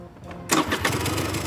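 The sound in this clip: A scooter engine starts: a quiet low rumble, then a sudden loud catch as the motor fires, followed by a steady, rattling idle.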